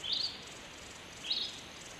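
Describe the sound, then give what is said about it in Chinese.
A small bird in the desert gives two high, faint chirps about a second apart over quiet, airy background noise. “首长，首长，小鸟，小点声，别惊扰了它。”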